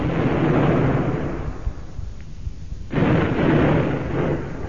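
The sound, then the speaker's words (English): A ship's gun fires during a naval battle in fog in a radio drama, with heavy rumbling blasts: a long, loud booming burst, a brief quieter lull, then another deep roaring burst. “Fire one more over him, Mr. Phillips, just to keep him off while we scarper. Aye, aye, sir. Fire two, Chief. Fire two, sir.”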